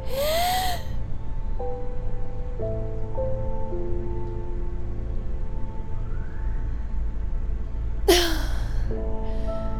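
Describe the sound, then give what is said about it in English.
After a held breath, sharp gasping inhalations burst out at the start and again near the end, with a quieter stretch between them over a steady low hum and soft sustained tones. “Until I can't hold my breath any longer.”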